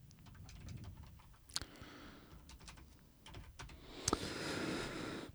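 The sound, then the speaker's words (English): Typing on a computer keyboard in a studio: soft, irregular clicks and taps throughout, quiet, with a few louder key strikes. “I love the sound of typing and breathing.”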